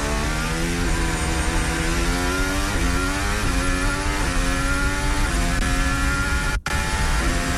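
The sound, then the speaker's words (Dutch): Formula 1 car engine heard onboard on the Baku street circuit: a loud, continuous high-revving whine whose pitch climbs and then steps down again and again, with a brief cutout near the end. “Hier zijn we aan boord. En de geluiden daarbij ook van Isaac Hadjar. Richting het smalste deel in Baku.”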